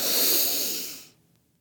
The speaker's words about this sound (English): Take a really deep breath with me. Just inhale really big.